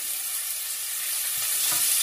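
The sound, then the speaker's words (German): Onions frying in olive oil in a pan, a dense, continuous hiss of sizzling and spattering that holds steady and grows slightly louder toward the end, with faint stirring and no voices. “Vorsicht, das spratzelt jetzt ein bisschen.”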